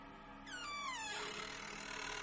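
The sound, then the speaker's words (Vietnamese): A door's hinges creak as the door opens, one faint, drawn-out creak that slides down in pitch and then fades into a steady hiss. “Vừa dứt lời, tiếng cánh cửa bản lề kéo ca kéo kẹt vang lên.”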